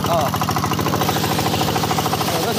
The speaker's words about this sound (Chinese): 一切准备就绪，发动机启动后，抽水机将海水抽进水管，然后又在海里将泥沙冲洗干净。